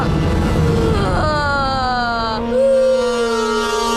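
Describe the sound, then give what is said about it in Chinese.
Loud, drawn-out crying in a wailing voice, the sustained tone sliding slowly downward in pitch with a brief higher wail near the end. “你哭什么哭？别哭。”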